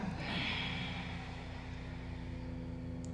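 A slow exhale during a breathing exercise, made on reaching the floor: a soft, airy whoosh of breath that is strongest in the first second and then fades. A steady low hum runs underneath, and no one speaks.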